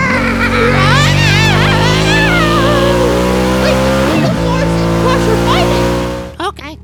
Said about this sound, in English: I'm gonna hit the gas as hard as I can.